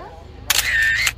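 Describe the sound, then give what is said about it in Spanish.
A camera shutter fires for the first photograph before a group enters a crypt. It makes one short, bright burst with a steady high whine, lasting under a second, over a quiet background. “La primera fotografía antes de entrar”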